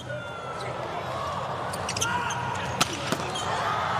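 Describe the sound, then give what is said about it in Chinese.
A volleyball serve struck by a Ukrainian player in a match against Poland, heard as a couple of sharp, short slaps that stand out over a steady wash of arena noise. “图布奇的发球”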